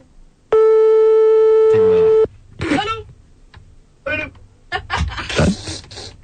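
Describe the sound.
A telephone ringing during a call: one long, steady, pitched ring tone holds for nearly two seconds, then stops as voices begin talking over a line.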